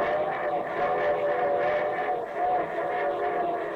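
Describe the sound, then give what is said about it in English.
Train sound effect: a steady, chord-like whistle tone rides over a continuous rumbling chug, holding at an even level throughout with slight swells. “And here comes our star-studded show train.”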